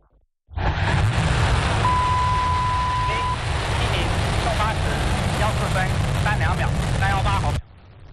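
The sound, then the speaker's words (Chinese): A Long March 7 Y11 carrier rocket ignites and lifts off with a loud, dense roar that bursts in abruptly and holds steady for about seven seconds. Voices talk over the thunder. “8:14，长征7号遥11运载火箭点火起飞。”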